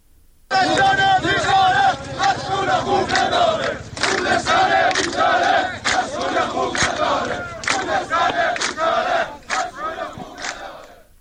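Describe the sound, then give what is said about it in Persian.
Workers chant slogans at a protest, a loud massed crowd shouting in rhythmic, repeated bursts that run continuously with short breaks between phrases. “صدای شعار کارگران رو میشنوید.”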